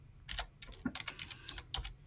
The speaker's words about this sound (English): Yeah, keep typing.